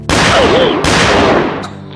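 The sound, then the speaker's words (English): Gunshots from a drawn pistol in a western saloon gunfight: two loud, sharp cracks less than a second apart, followed by a sustained rumbling tail that slowly fades. No voices. “He pulled and shot the older man before the man could clear leather.”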